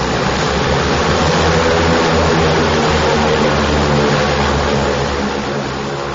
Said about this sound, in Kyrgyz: Жүргүнчүлөр олтурган соң кезектеги самолет аларды Бишкекке көздөй алып жөнөдү.